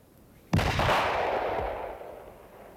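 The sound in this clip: A single rifle shot fired by a soldier on command gives a sharp, loud crack. A long rumbling echo follows and fades slowly over the next two seconds.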